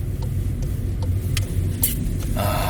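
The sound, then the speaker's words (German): Low, steady rumble of a car driving on the road in Cologne early in the morning, with a few brief clicks and a rush of brighter noise near the end. “Morgens um 6 in Köln Autofahren ist geil.”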